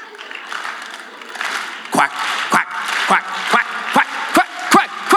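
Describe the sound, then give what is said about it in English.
Slow clap in a room full of people: eight sharp, single hand claps begin midway and come gradually quicker, over a low murmur of voices. “you know what a slow clap is? Like someone makes a big speech in the locker room, it's like,”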